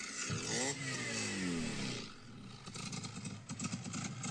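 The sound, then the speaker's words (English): A cammed car engine, a Mini Coupe, revs up and back down, then settles into a lumpy, uneven idle with a choppy, pulsing rhythm. “What motor is that? Sounds like a rotor. Sounds like a rotary, yeah. It's got a bit of a cam in it. That's not a rotor. Yeah, it's not. It's got a cam. It's lumpy.”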